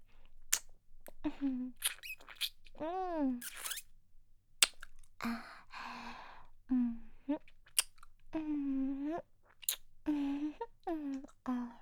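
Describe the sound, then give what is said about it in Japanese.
Wet licking sounds on an ear come in irregular bursts of soft squelching smacks and squeaky sucking noises, broken by short pauses, with some soft voiced sounds mixed in. “お耳を舐める音、そんなに好きなんですか？”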